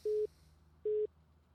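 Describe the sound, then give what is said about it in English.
A call-waiting beep sounds on a phone line: two identical low, flat electronic tones, each about a fifth of a second long and evenly spaced, heard alone over faint line hiss. “That idiot keeps beeping in, by the way.”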